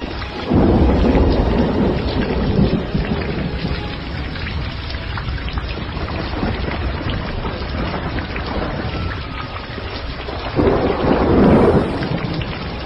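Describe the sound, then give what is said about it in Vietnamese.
A thunderstorm pours down heavy rain in a continuous dense roar. Two deep rumbles of thunder swell over it, one near the start and one near the end. “Mây đen tụ lại, ánh chớp lóe qua bầu trời, tiếng sấm ầm ầm. Một cơn mưa lớn lại đổ xuống nữa, nước mưa xối lên mặt.”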